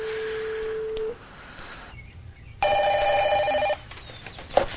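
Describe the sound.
A telephone rings at a house: a steady tone, then after a short pause a louder, buzzy ring with layered tones lasting about a second, over a low background hum.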